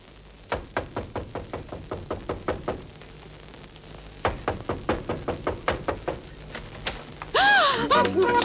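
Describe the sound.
Knocking on a door by police: many rapid, hard knocks in two long bursts separated by a short pause. A brief voice follows at the end.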